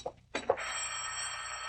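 A telephone rings: a couple of short, sharp clattering hits give way to a continuous, bright, buzzing bell ring that keeps going at a fairly quiet level.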